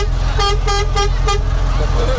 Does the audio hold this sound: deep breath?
no